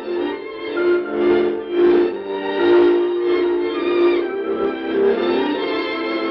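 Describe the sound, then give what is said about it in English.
Music distorted as on a poor-quality radio: tinny, narrow and muffled, with sustained tones that swell and fade gently, played at a steady moderate level with no talk. “The music you hear on some radios may sound like this.”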